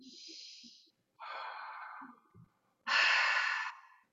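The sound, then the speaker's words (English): Deep, breathy inhalations during a guided breathing exercise come as a few loud, hissing rushes of air separated by short silences, with faint soft thumps between them. “Breathe in and hold.”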